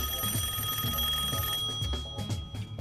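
A telephone rings with an incoming call: steady electronic ringing tones held over a low, pulsing background, with no voices.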